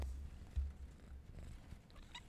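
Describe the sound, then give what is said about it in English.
A cat purring quietly, a low, steady rumble with faint pulsing and no talk over it. “Say something, kitty. You can hear him purring.”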